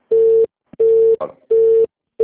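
Telephone busy signal after a dropped call: a steady mid-pitched tone pulses on and off at regular intervals, four bursts with the last cut off, and a short scratchy noise between the second and third.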